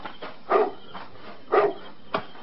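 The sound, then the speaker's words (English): A dog barks outdoors in the dark, giving a few sharp, separated barks at a moderate level against a quiet background. “Now, what are you barking at? There's nothing out there in the dark, stupid dog.”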